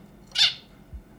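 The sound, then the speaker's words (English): A zebra finch, a small Australian bird, singing to its chick still inside the egg: a single brief, high, nasal call, alone against near silence. “That is the sound of a zebra finch, a small Australian bird, singing to its chick.”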